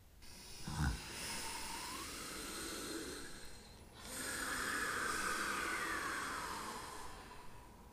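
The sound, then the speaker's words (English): A group takes a deep, full breath together during a partner exercise: a long, airy, hissing inhale followed by an even longer, fuller breath of air, soft and steady with no talking. “Let's take a deep, full breath all together.”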